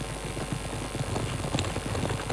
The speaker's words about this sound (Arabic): حيرني أمر فرس البلقاء، لقد تراجع فارسها بعد أن أبلى بلاء حسنا في المعركة. هو ذاك يتجه إلى المنازل.